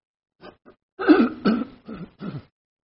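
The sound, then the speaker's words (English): Someone clears their throat in a short series of rough, gravelly bursts, the middle ones loudest, with silence between them. “Excuse me. I've got something in my throat.”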